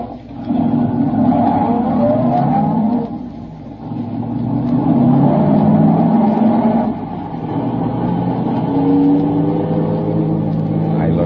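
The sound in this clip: A car engine revs and accelerates as the car drives off, a loud, steady rumble with several rising sweeps in pitch as the engine speeds up.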